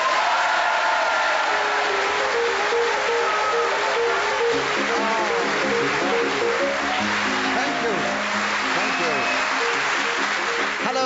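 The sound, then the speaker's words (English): Chopin's Minute Waltz plays as theme music, a quick, busy run of piano notes going on steadily at an even, moderate level throughout. “as the minute waltz fades away, once more it is my pleasure to welcome our many listeners”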